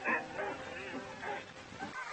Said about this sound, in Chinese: 塞巴斯蒂安·多斯桑托斯·博格斯将带着雪橇犬团队从怀特霍斯出发，开始探险之旅。刚到育空地区，他们就赶上了这里著名的雪橇犬大赛。